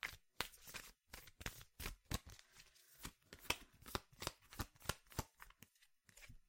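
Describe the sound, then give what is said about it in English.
Tarot cards are shuffled and drawn in a faint run of many quick riffling, snapping bursts with an irregular rhythm and short pauses between them. No voices are heard. “let's do each pull a card for blockages first.”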